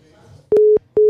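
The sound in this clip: A telephone busy tone sounds after a call is hung up: a loud, steady, low electronic tone that pulses on and off in long beeps separated by short silent gaps, with no voices.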